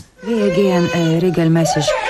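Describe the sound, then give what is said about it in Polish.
Child crying in a radio drama, a loud, sustained wail with wavering pitch that breaks into a few sobbing steps, steady and insistent throughout. “Niech pani ją zostawi. Czy pani nie widzi, że ona płacze?”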